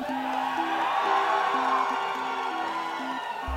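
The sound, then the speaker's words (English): A roaring crowd cheers at an esports event, a dense, steady wash of voices holding at an even loudness throughout, with a low repeating tone pulsing beneath it. “from the roaring crowds”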